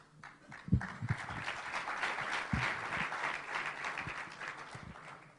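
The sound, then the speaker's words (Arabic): An audience at an Islamic lecture claps, making a fairly faint, continuous patter of applause with a few sharper, louder hand claps scattered through it. “صفقوا شوي بعد زيادة”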